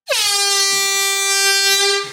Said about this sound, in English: Today, we have a real horn. Stay there. This isn't going to sound that well. 3, 2, 1.